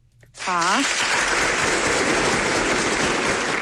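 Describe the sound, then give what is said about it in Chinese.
Applause for a live performer doing a two-role opera piece: dense, steady clapping that swells in quickly after a brief vocal tone and then holds loud and even to the end. “那我给您鼓鼓掌啊！”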